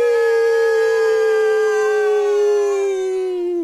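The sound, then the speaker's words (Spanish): People howl together to imitate wolves, a loud sustained howl held at a steady pitch that dips slightly at the very end. “Un, dos, tres, todos aullamos.”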